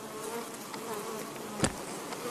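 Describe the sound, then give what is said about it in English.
Honey bees buzz around a backyard beehive in a faint, steady, hissing hum, with one brief louder burst partway through. “Backyard beekeeping.”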